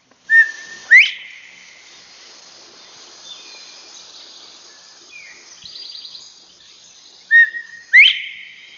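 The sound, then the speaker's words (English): A common bobwhite whistles its clear two-note call twice, each a short note followed by a louder, sharply rising whistle. Faint, thin bird notes fill the quiet gap between the two calls. “Common bobwhite.”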